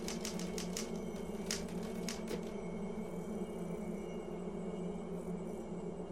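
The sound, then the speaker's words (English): Typing on a typewriter at a desk in a study: a quick burst of several sharp keystrokes during the first two seconds, then only a steady low hum. “She works on the typewriter, a cigarette in her lips.”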